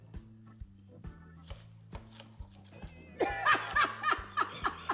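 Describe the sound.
An onion is chopped with a knife: many steady, rhythmic blade strikes against a board, with laughter joining in and growing louder over the later chops.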